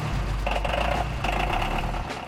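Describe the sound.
A mini tractor's engine running steadily as it tows an aircraft out, a loud, low throbbing drone that holds an even level throughout.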